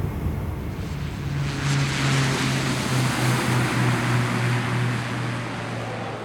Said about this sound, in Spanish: El avión despega